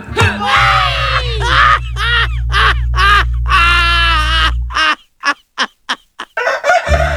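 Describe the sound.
A rooster crows loudly in long, harsh, rising calls over a low steady drone, followed by a run of several short, sharp clucks.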